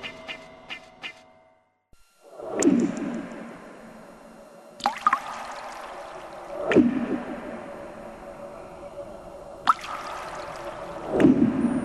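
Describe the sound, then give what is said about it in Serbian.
Water drops fall with no rain, landing as a few separate, loud, sharp splats spread several seconds apart, each with a short wet, liquid trail. “Da, vidi, kapi, a nema kiše na svu sreću.”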